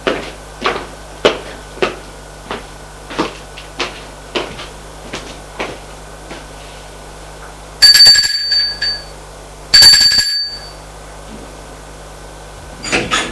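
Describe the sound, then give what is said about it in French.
A doorbell rings at an apartment door, two loud, ringing electric tones of about a second each. They follow a long run of regular dull taps, and a few more taps come after them. “Elle sort de son appartement et va sonner au sien.”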